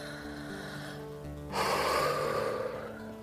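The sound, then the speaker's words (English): A very deep breath: a broad, airy rush of breath that begins about halfway through and holds steadily to the end, over a soft, steady tonal background. “he took a very deep breath”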